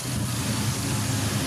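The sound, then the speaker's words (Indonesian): Motorcycle engine and road noise on a morning ride through the streets of Mijen City, Semarang: a steady, dense mid-pitched drone with no breaks and no talk. “makanya langsung ditumpak ke motor nih pagi hari ini untuk menyusuri Mijen City, Kota Semarang.”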